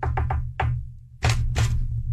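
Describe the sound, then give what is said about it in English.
Knocking on a door in a secret-knock pattern: a few quick raps, a short pause and one more, then two louder, broader bursts, all over a steady low hum. “Did you have a secret knock when you'd go over to a friend's house?”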